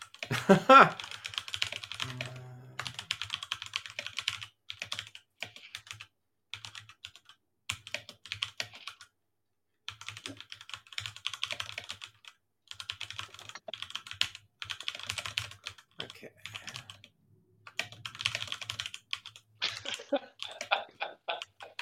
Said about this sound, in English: Type, type, type, type, type. Okay. You got that loud keyboard.